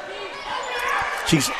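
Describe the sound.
A basketball is dribbled on a court during a game. A few sharp, evenly spaced bounces thud beneath continuous commentator talk.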